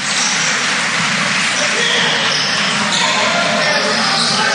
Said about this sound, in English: Dribbles the ball.